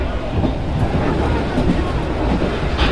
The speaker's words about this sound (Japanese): ご乗車いただきましたノロッコ号は、雄大な景色をお楽しみいただけるよう大きく開いた展望窓が特徴の観光列車です